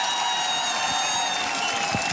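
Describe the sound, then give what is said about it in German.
Applause from a folk music concert audience after a band's performance. The clapping stays dense and steady at a moderate level for about two seconds. “Das ist nochmal euer Applaus. Dankeschön.”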